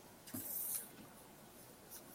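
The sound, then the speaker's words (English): Cartoons are being drawn on paper, with a few faint, soft scratchy strokes of a drawing tool against the sheet over quiet background hiss. “I love sitting here and drawing cartoons.”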